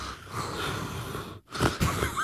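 Heavy, wheezy breathing, a rasping, noisy draw of air that briefly cuts out midway before another harsh breath follows.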